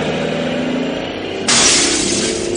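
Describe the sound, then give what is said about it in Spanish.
Window glass is broken in a single sudden, bright shattering crash about halfway through, cutting in over a steady low hum that continues beneath it. “rompe el cristal de una ventana y la abre para pasar al interior de la nave”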